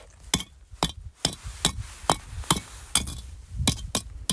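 Lava rocks knocked together on a lava field give a rapid series of hard, sharp knocks with a dull, almost clay-like tone. The clacks come at a fairly even rhythm, loud against faint background noise.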